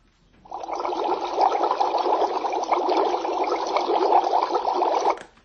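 Boiling water gives a steady, dense rushing and bubbling hiss. It holds an even level for about five seconds, then stops abruptly, with no voices over it.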